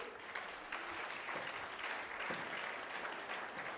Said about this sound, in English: That applause you heard is the welcoming nature of this particular group.